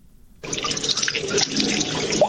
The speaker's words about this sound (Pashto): د اوبو دا شور په برمرانه کې موجود جوړ شوی تالاب دی.